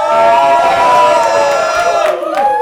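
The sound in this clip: A live audience at the Mutiny Info Cafe cheers, whoops and hollers, a loud, dense swell of many voices that holds steady and thins slightly near the end.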